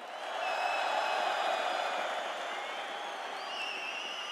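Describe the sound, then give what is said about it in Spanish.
A live audience applauds, making a faint, dense wash of clapping and crowd noise. It swells in early and holds steady for about four seconds. “Quiero que aplaudan primero las mujeres. Bien, muchas gracias. Y ahora los que mandamos en la casa, los hombres.”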